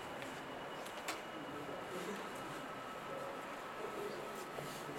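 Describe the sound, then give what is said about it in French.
A passing tram produces a low, steady rolling rumble with a faint hiss and a few soft clicks. It stays quiet and even throughout. “Le tramway qui est très musical en termes de sonorité.”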